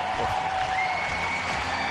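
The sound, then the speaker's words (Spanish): Crowd applause and ovation for a tennis player at an emotional farewell, a dense, steady wash of clapping that holds at an even level throughout with no clear breaks. “ganando muchos títulos, ovación para Roger Federer.”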